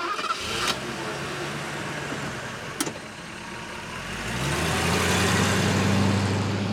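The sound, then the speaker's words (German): A car engine starts up, then a low rumble swells and holds as a loud, steady drone while the car pulls away, over a constant background hiss. “Na los, fahren wir weiter.”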